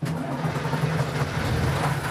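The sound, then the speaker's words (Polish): The engine of a clutch-started vehicle, its brakes locked, runs with a steady, loud rumbling drone and a low hum throughout, without pauses or voices. “To jest dokładnie sprawa taka jak w samochodzie, czyli sprzęgiełko i start silnika. Mamy zablokowane hamulce, także nic się nie stanie. No to próbujemy.”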